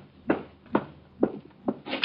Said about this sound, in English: Someone's at the door. It might be him. I'll get it.